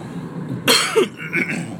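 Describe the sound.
A brief cough from someone with a tickle in the throat: a sharp, harsh burst, then a softer second catch, loud against a quiet background.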